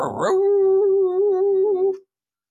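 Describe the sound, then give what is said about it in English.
A person imitates a werewolf's howl, playing a puppy-like werewolf: one sustained, steady-pitched voiced howl of about two seconds, loud and alone, ending abruptly. “I'm howling at him.”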